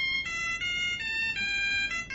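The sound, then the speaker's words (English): A mobile phone plays a popular hymn as an electronic ringtone, a clean, bright run of beeping synthetic notes stepping through the melody at an even pace, with nothing else heard. “Yep, mobile phone ringtones of popular hymns.”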